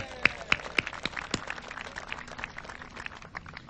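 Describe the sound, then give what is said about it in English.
Scattered audience applause for council members at a Kirkland civic gathering: a loose patter of individual hand claps, a few louder ones standing out early, then thinning out. “Let's give them a hand.”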